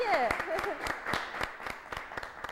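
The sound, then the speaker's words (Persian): An audience of seated listeners claps firmly to applaud themselves. Dense, continuous applause runs throughout, with a voice speaking over the opening moments. “یه دست محکم برای خودت بزن. دوست دارم تمام عزیزانی که اینجا نشستن دست بزن.”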